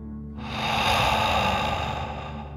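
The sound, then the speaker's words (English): One long, deep breath blown out through the mouth during a guided relaxation exercise. The breathy rush swells quickly, holds steady and eases slightly over about two seconds, with no talking. “out through your mouth, imagining you are breathing fire like a dragon. Ready? Deep breath in and out.”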